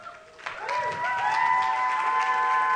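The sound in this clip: Audience applause welcomes a speaker about to share her story at a faith gathering. The continuous wash of clapping swells after the first half second, with sustained tonal notes running beneath it.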